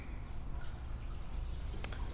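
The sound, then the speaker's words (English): Clear creek water, running higher than usual, flows beneath a bridge as a steady, even rushing wash, with a brief sharp click near the end. “All right, going under the bridge. Yeah, we got a little bit more water than usual flowing. It's lovely. It's very clear water. Can see the bottom of the creek.”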